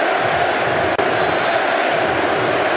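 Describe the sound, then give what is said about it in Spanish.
Football crowd noise from the stands at a United States match in the Bay Area: a loud, steady roar of many voices that holds level throughout. “Los sonidos en la tribuna, los sonidos del fútbol.”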